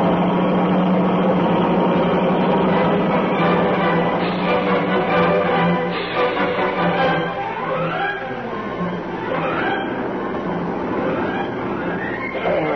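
A vehicle engine drones steadily while driving along an unfamiliar road, a continuous loud rumble with whining tones that shift and climb in pitch toward the end.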